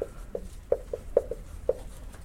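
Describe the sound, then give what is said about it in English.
Writing Greek words on a board gives a faint series of short, sharp taps and strokes in an uneven rhythm, with quiet gaps between them. “I didn't just erase that to erase what you wrote. I'm going to write some Greek words up here.”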